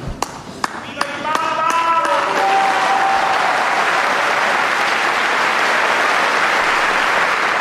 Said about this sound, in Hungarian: Most sem maradt el a szokásos tapsvihar, amivel a zarándokok köszöntötték Ferenc pápát, illetve megköszönték az ő áldását.